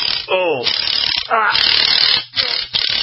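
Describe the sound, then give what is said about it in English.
An impact gun fastens a shop's open sign in a few quick bursts of ratcheting mechanical rattle, loud and buzzy, with voice-like sounds mixed in. “The screw gun wasn't working last week. I had to get the impact gunned out.”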